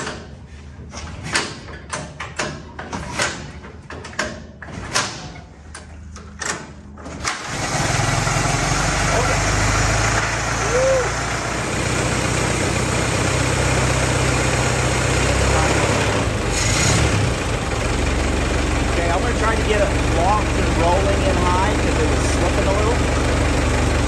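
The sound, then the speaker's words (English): A car engine on a dyno with its wheels free, timing retarded and a little throttle applied, cranks in a run of sharp repeated pulses for several seconds, then catches and settles into a loud, steady idle. “You gotta retard the timing, you gotta put a little throttle in it. Good thing is it's on the dyno, so the wheels are free.”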